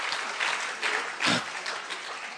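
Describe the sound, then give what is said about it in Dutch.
Group applause rewarding participants at a bilingual goal-setting workshop, steady clapping from a small crowd that swells in a few brief surges before settling back. “4, 3, 2, 1. Applaus! Good job!”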